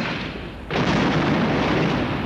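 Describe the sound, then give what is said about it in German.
Recorded explosive demolition of a house: a dense, low rumble suddenly jumps louder and then roars on steadily without letup to the end. “Hier auf Band habe ich schon über 100 Sprengungen von Häusern.”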